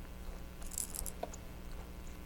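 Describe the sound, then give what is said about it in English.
Keys jangle as they are shaken during a parent and toddler's turn-taking game: a short burst of bright metallic jingling, followed by a faint click, over a steady low hum with no voices. “No more keys? You could drink the juice. You want to shake the keys?”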